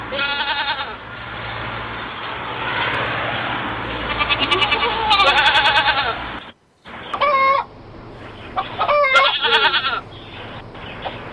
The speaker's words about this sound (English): Yeah, it's a goat too, right? You got a goat over there